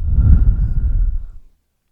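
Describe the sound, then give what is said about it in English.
A single deep exhale at the end of a guided breathing exercise: soft, airy breath noise that holds steady for about a second and a half, then fades into silence. “Now I just want you to take one final big deep breath in with me. And hold it. And breathe out again.”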